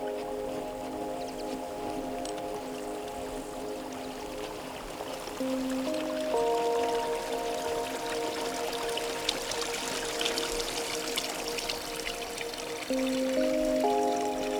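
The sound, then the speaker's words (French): Water laps gently in a soft, continuous watery wash, quiet and even, heard beneath sustained, slowly shifting musical tones. “serez-vous sensible à ce doux clapotis ?”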